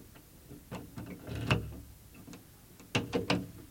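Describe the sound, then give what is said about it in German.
A key turns in a cabinet lock, producing a few sharp metallic clicks and rattles spread out at first, then a quick cluster of louder clicks toward the end, with no talking. “Der Schlüssel dreht sich. Der Schrank ist offen.”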